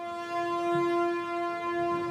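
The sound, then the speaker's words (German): A train pulls out of Moscow's Kazansky station, its horn sounding a steady, sustained tone. Beneath the horn, a soft low rumble gently swells and eases. “im Kasaner Bahnhof von Moskau, schickt der stellvertretende Verteidigungsminister den Zug auf seine Reise”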